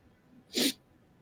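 A single sharp human sneeze bursts out and quickly dies away, with no talking around it.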